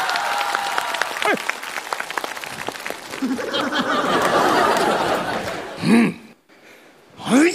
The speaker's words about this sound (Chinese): 来了，来，掌声。